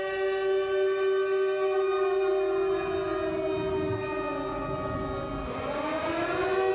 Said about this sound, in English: Now it's every day, because that's the sound you hear. Air raid sirens are still up in Austin and Dallas, Texas, and towns wherever you live. When the nukes are coming in, that's what you're going to hear.